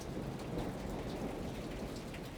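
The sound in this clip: Cold rain falls in a steady, dense hiss over a low rumbling undertone, faint and even throughout without pause.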